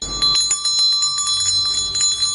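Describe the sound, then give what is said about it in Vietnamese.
Clear ringing of an old, dull-gold metal bell hanging under a door and swinging on its own without wind: sustained bright high tones with many rapid repeated strikes, steady and loud throughout. “Tiếng chuông lanh lảnh khuấy động gian phòng. Chuông kinh hồn treo dưới cửa tự động rung không cần gió.”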